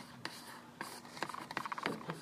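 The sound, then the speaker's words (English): Writing on a board during a mathematics lecture: a run of short scratchy strokes, scattered at first and then coming in quicker bunches toward the end, with no talk over them. “so I'm going to write that part this way.”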